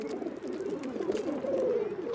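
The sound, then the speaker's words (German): Pigeons coo at a school, a steady low murmuring that rolls on without a break for the whole clip at moderate loudness. “Überall sind Tauben und alles ist voller...”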